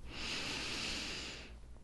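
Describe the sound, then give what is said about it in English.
A single deep breath drawn in as a soft, airy hiss. It is quiet and steady for about a second and a half before trailing off. “Take a deep breath.”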